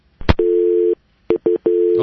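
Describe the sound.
Telephone busy signal after a caller was dropped: a steady, low tone that breaks into uneven segments of differing length, with short bursts of voice between them.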